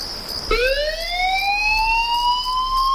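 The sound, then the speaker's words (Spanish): A fire brigade emergency alert on Tenerife sounds as an electronic siren tone. It starts abruptly and glides slowly upward in pitch, bright with layered harmonics, over a faint background hiss. “Suena un aviso. Alguien necesita ayuda en algún punto de la isla.”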